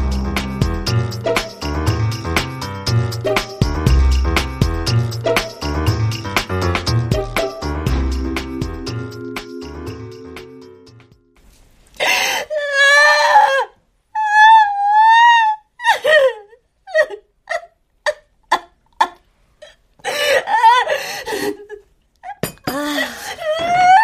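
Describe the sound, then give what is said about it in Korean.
A person wails and sobs in loud, drawn-out, wavering cries broken into short bursts, following a stretch of other tonal sound. “너 지금 두 시간째 통곡 중이야. 물이나 마시면서 울어. 그러다 쓰러지겠다.”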